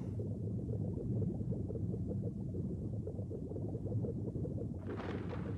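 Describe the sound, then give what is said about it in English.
Deep, continuous rumbling of an underwater volcano, a dense low roar that churns steadily, with a brief hissing burst rising over it near the end. “Captain, it's an underwater volcano. This confirms it. That seething mountain still denies rest to the civilization it destroyed thousands of generations ago.”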